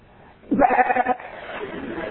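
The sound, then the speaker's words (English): A person imitates a sheep bleating, giving one wavering, nasal bleat of about half a second, followed by quieter low noise. “Well, wait a minute. I am a sheep. I'm a sheep.”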